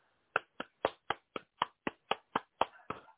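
Hand clapping with the fingers held together: eleven sharp, evenly spaced claps in a steady rhythm, each crisp and bright with a quick decay, heard alone with no voices.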